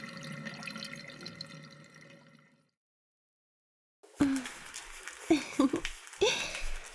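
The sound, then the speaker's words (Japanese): Water splashing and rubbing as oil is washed off a body with body soap: a steady wet texture, a short silent pause, then louder, irregular splashy bursts. “さて、それじゃあボディーソープでオイルを洗い流していきますね。”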